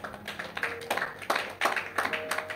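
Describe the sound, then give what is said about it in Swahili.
An audience claps for business people, with a handful of distinct, fairly quiet claps landing in a loose, uneven rhythm. “nawapongeza sana wafanyabiashara tuwapigie makofi”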